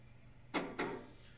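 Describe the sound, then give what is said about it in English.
Two quiet knocks on a door come in quick succession, each a short dull rap against an otherwise near-silent background. “Why are you knocking? Just come in.”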